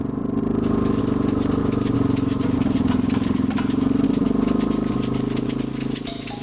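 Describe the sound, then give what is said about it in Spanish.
A Volkswagen Beetle convertible's engine runs steadily, giving a loud, continuous low throbbing rumble with a fast rattling tick over it. “Para ir en este vehículo hace falta eh, bufanda porque vamos a ir descapotados hasta Berlín, me temo. Pero supongo que vamos con un cucaracha, un escarabajo, Volkswagen, ¿no? Vamos con uno descapotable.”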